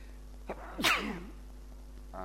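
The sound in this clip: A single human sneeze during an Islamic study lecture: a brief catching inhale, then one sharp, loud, breathy burst that trails off quickly. A steady low hum runs underneath, and a faint short sound follows near the end.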